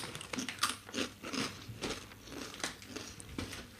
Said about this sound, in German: Und, also, wir knabbern euch jetzt hier seit irgendwie geraumer Zeit einen vor.